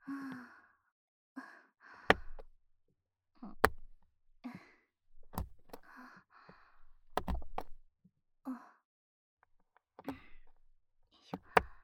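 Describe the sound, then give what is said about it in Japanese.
A knife chops chocolate into small pieces, making sharp, isolated knocks at irregular intervals, with soft breathy sighs between the cuts. “あとは縦方向に向きを変えて、はあ、チョコが細かくなったから切りやすくなったな。”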